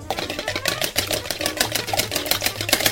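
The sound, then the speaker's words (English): An egg is whisked with a little milk, making rapid, regular clicking strokes that repeat many times at an even pace throughout. “Now ahead of glazing, I get a quick egg. Open up. Drop in. And quickly whisk that up with a little milk.”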